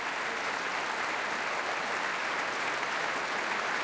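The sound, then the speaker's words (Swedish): Concert audience applause for the evening's orchestra and vocal soloists: a steady, even wash of many hands clapping, fairly soft and unchanging throughout, with no voices over it. “tar emot applåder och så gör också kvällens solister.”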